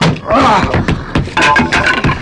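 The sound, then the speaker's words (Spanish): A wooden door smashed into splinters by a man hurling his 90 kilos of muscle against it: a few loud, sharp crashing impacts with cracking, splintering noise, and voices mixed in. “Y la puerta vuela convertida en astillas.”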